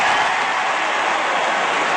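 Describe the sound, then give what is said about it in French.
A stadium crowd gives a steady ovation during a ceremony. The applause and cheering form a dense, even roar that holds at the same loudness for the whole clip, with no separate claps or voices standing out. “Et ce sera encore l'ovation dans quelques instants.”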